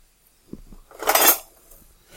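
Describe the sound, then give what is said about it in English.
Utensils clink and clatter in a kitchen drawer during a search for a wooden spoon while baking bread. A few light knocks lead into a brief, louder metallic jangle, then one more sharp clink at the end. “I'm looking for my wooden spoon. Oh, there's my wooden spoon.”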